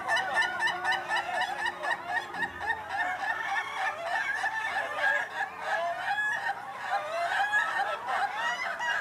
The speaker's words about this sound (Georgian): და მეხუთე კატეგორია, როდესაც სიცილი ხანგრძლივია. რაც უფრო დიდხანს იცინის მამალი, მით უკეთესი.